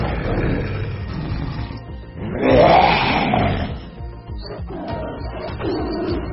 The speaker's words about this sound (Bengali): তাদের ভাল্লুকের মতো শরীর আর বাঘের মতো মাথা। বিকট গর্জন করে সেই দুটো জলজ্যান্ত বিভীষিকা ছুটে এলো তাদের দিকে।